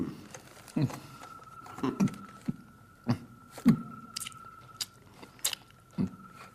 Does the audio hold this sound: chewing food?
yes